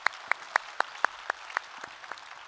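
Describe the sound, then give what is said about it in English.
A church audience claps to welcome campus and online members, with sharp, evenly spaced claps standing out over a steady wash of noise and softening toward the end. “So if you would, put your hands together, welcome them into our time of study here today.”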